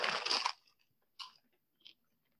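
Crunching on cheddar cheese popcorn with round, slightly soft kernels: one loud burst of crunchy chewing, followed by two faint, brief crunches with quiet between them.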